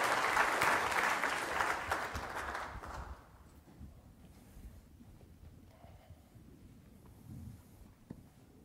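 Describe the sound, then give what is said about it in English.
A church audience applauds a new family with a burst of loud, dense clapping that lasts about three seconds, then thins out and fades to quiet background noise with a few faint stray sounds. “Let's give this new family a hand.”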